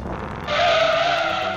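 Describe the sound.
A go-kart driving fast along a beach: loud buzzing engine noise that swells sharply, then holds a steady high whine, with no voices.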